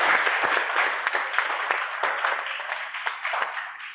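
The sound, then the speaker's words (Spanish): An audience applauds at the end of a talk, a dense, sustained patter of many hands clapping that holds steady and eases slightly toward the end. “Nacho, y un aplauso, yo creo que por el tiempo que nos ha dedicado”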